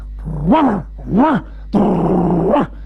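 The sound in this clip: A human voice imitates a dog growling, playing a restaurant's dog guarding its food bowl: three loud, gruff growls, the first two short with a rising then falling pitch, the third longer and more sustained, ending with a brief upward lift.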